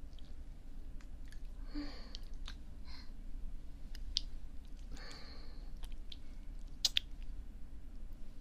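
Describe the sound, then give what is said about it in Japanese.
Hands massage skin generously coated in oil, working the legs and thighs, producing faint, soft squishy strokes and occasional small wet clicks at irregular intervals. “オイルをたっぷりつけてマッサージしていきますね。”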